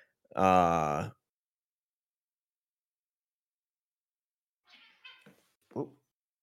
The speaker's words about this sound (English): that was an interesting cat noise.